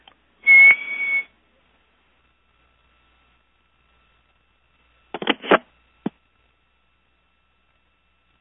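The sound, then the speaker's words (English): A person whistling a short, steady high note over a telephone line, followed several seconds later by a few brief, faint bursts of sound, with long silences between. “I'm going to try to whistle, too.”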